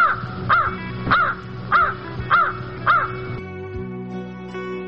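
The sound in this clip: Crow cawing: five loud, harsh caws in a steady, evenly spaced rhythm over a constant tonal hum, then the calls stop and only the hum remains.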